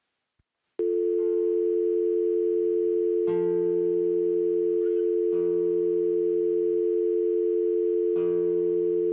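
A steady telephone dial tone sounds after a brief click and holds unbroken for about eight seconds while a guitar is tuned to it. A few plucked guitar notes ring out over the tone as the strings are matched to an F.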